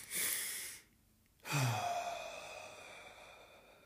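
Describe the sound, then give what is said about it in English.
Breathing exercise demonstration of quick inhaling followed by a long exhale: a short burst of breath, a brief silence, then a long, airy, sighing breath out that starts strong and slowly fades. “Let me do another demonstration, right? Two quick inhale and a long exhale.”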